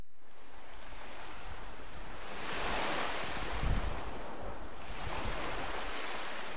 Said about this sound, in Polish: Zawsze tutaj wzdłuż plaży morze szumi, a ja biegnę.